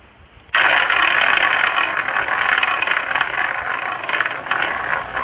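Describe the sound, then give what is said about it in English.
A prize wheel spins: a loud, dense rattling clatter bursts in abruptly and runs on steadily, easing slightly toward the end. “All right, let me spin the wheel.”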